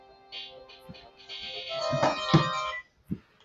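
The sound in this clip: A mobile phone ringtone plays a short melodic pattern of bright electronic tones, moderately loud, with a brief pause and a final soft note.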